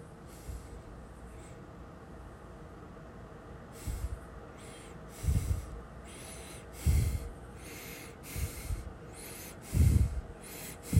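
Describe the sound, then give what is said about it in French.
Faint breathing: a steady series of soft, breathy inhales and exhales recurs at a regular rhythm over a low, constant background hiss, with some breaths carrying a slightly heavier, snort-like push. “vous avez entendu que mon souffle, que le battement de mon cœur”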